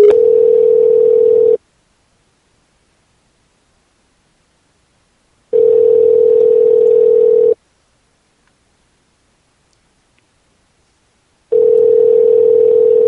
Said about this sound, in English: Oh, he hung up.